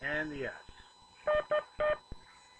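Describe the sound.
Morse code CW tones sent during a ham radio Morse class: after a brief spoken word, a steady beep sounds long-short-long, spelling K, with a faint short blip following.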